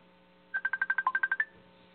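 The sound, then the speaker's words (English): Telephone keypad dialing tones sound as a number is entered: a quick, evenly spaced run of many short, fairly quiet electronic beeps with one lower-pitched tone partway through, and no voices. “And then would you go and dial 1 and it's 215? Hello?”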